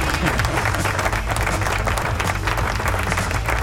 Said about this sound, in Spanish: Y ese no es, es este el botón. Ahí está, aplauso.